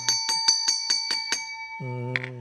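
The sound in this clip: A small bell strikes seven bright, evenly spaced rings as a segment cue on a legal-advice program, followed by a lower sustained tone with a slight wavering quality.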